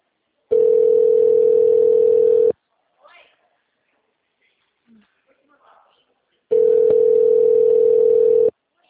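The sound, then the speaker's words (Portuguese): A telephone tone sounds while calling back after the line dropped: two long, steady, mid-pitched beeps, each about two seconds, separated by a quiet gap holding only a few faint rustles. “mas ele desligou. Tô retornando.”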